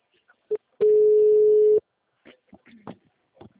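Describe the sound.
A telephone ringing tone sounds once as a steady, even beep lasting about a second, followed by faint, scattered talk.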